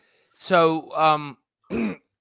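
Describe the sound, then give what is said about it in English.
Short cough and throat-clearing sounds from one person: three voiced bursts, two close together and a third after a brief pause, heard alone and fairly loud. “I got a cough.”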